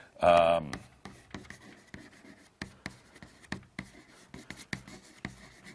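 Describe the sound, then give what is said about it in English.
Handwriting sounds: many short scratchy pen strokes in an irregular rhythm, some louder and some faint, with brief gaps between them. “Let me write that up.”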